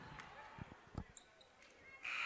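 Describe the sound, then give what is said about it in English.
A basketball bouncing loose out of bounds during a high school game between Lincoln Northeast and Millard South: a few faint, hollow thuds amid soft gym noise, with a commentator talking. “luckily for them there, they were able to hold on to that loose ball and let that one just dribble out of bounds”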